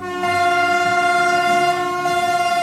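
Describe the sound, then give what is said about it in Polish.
A train pulls in at platform one of Gniezno station. It is a regional passenger unit decorated for a coronation theme. A loud, steady, high whining tone with strong harmonics holds throughout over a low rumble, with no voices. “Z 5-minutowym opóźnieniem po 10:00 na peron pierwszy wjechał pojazd koronacyjny Kolei Wielkopolskich.”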